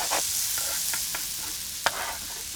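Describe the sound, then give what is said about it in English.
Sliced mushrooms, 300 grams, fry and are stirred in a pan. A steady sizzle carries a few soft stirring scrapes, with one sharper clack near the end. “And next, add 300 grams of sliced mushrooms.”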